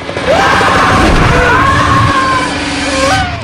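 A man screams as he is pulled through the door of a climbing plane and falls toward the city streets far below. His loud, wavering cry carries over a steady, heavy roar.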